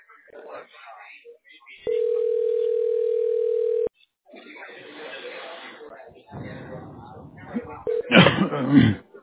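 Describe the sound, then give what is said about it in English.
A phone line dials out on a call: a steady single-pitch tone holds for about two seconds, with people talking before and after it. “It's dialing in right now. It's dialing in right now.”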